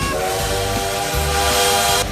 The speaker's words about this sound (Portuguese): Olha o trem-bala do Modão da Paz.